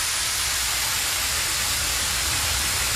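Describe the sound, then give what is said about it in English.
A big fire hose spraying water, a loud, steady rushing hiss that runs continuously without breaks or changes in level. “They should just park these up outside Wembley Stadium later, because everyone's going to be absolutely in need of it. The big fire hose. This sounds like a big wee.”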